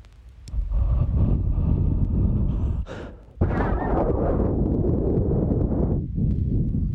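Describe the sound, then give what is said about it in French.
Rumbling wind noise from someone blowing directly on a microphone with its windscreen removed: two long, heavy, low blasts separated by a brief drop near the middle, with a slight dip toward the end. “On peut faire comme ça des roulements juste en soufflant sur le micro.”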